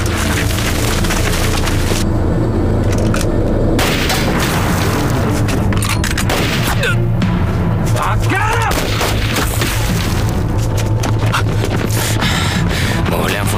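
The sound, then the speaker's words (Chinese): Gunfire and heavy booms erupt during an armed raid, forming a loud, dense barrage of sharp bursts and cracks that continues throughout without pause. “他们怎么先开枪了？”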